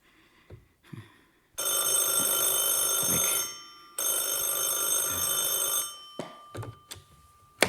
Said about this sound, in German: Von wem kam der Anruf?